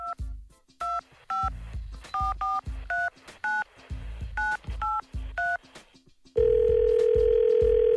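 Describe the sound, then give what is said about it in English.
Touch-tone dialing of a phone number: a run of about nine short, sharp dual-pitch beeps, each with a soft key-press thump, in an uneven rhythm, then a loud, steady held line tone at the end. “So let's dial a number.”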